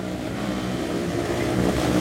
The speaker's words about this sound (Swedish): Snart kommer det själva klimaxet där. Åker de iväg, speedway-cyklarna. Jag bor ju rätt nära en av de här speedway-banorna. Och det hörs ju bra långt alltså.